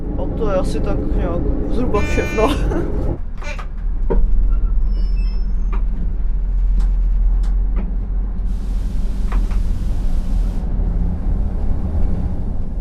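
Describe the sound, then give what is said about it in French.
A train running along its track, a steady low rumble under voices at the start, with a brief horn-like toot early on. “Le train poursuit sa route”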